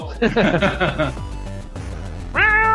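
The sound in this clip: Cat meowing in a few high, harmonic calls clustered at the start, then a pause and one more drawn-out, tonal meow at the end.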